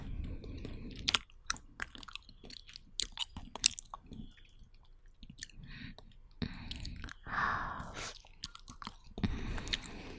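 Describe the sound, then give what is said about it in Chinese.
Chewing on barbecued food, with wet, crunchy bites and mouth noises in an irregular rhythm, coming in bursts with short pauses between them and no talk over it. “有一阵子没有吃烧烤了，你也爱吃这个”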